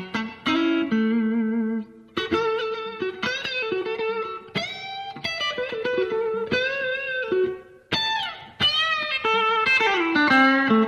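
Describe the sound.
Blues electric guitar licks in a B.B. King style, played through effects with some distortion: loud, expressive phrases of sustained, bent and vibrato notes, broken by brief pauses near the second and eighth seconds, with no talking.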